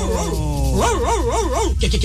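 A dog gives a wavering, whining howl that rises and falls in pitch, then a few short yips, all over a steady background hum.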